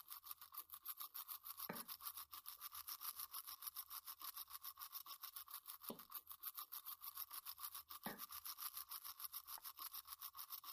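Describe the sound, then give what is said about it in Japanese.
Brushing the backs of teeth with a toothbrush makes a faint, steady bristly scrubbing, many quick strokes in an even back-and-forth rhythm throughout, with no talk. “今度は裏の方も磨いていこな。”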